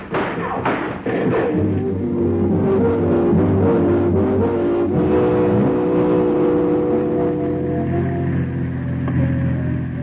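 A car engine roars and revs at speed during a chase, a loud, sustained drone of shifting engine tones with a few heavy thumps near the start and no voices.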